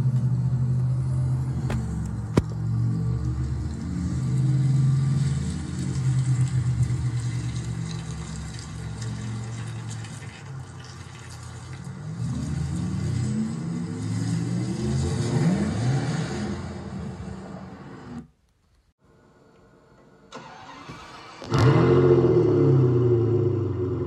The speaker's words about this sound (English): we have managed to track down a Fiat Scaglietti and a Porsche Taycan, so here they are. I'm sure you can tell which is which.